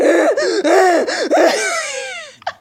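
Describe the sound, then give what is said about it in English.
A voice imitates wheezing: a run of strained, breathy, high voiced pulses that waver in pitch, then a long, falling, gasping draw and a short final catch of breath. “wheezing and shit. That shit's crazy.”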